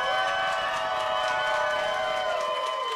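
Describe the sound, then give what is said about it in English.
An audience cheers and shouts to vote for a contestant in a competition. The crowd noise is a steady, sustained roar of voices that holds at a fairly even level and tapers slightly at the end. “If you think the winner should be the following person, make noise. We're gonna start with Rachel Scanlon.”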